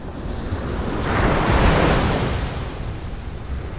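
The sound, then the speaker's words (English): Slow ocean waves wash ashore at a cove in Malibu, California, with one broad surge of surf swelling to a peak and easing back beneath a steady hiss of foam and some wind noise on the microphone. “there is a Kalahari Bushman watching slow waves flop ashore at Paradise Cove in Malibu, California.”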